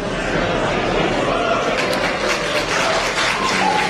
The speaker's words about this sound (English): You might hear the applause in the background.